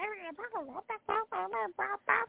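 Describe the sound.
Clucking and squawking from a flock of 2,000 chickens: a quick series of short, nasal, harmonic calls with bending pitch, fairly loud, separated by brief gaps.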